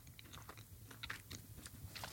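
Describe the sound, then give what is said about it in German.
Chewing a small, soft, biscuit-like fruity wafer with a citrus note: faint, irregular crisp crunches and bites at a quiet level. “Aber es sind viele kleine Plättchen. Kann ich da gleich mehrere auf einmal essen? Oder ja, starte doch mal mit einem.”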